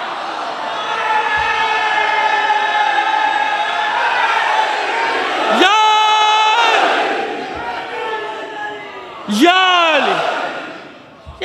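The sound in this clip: A crowd chants a slogan in loud, sustained, voiced unison. Two sharp shouted calls rise and then fall in pitch, each followed by the massed voices.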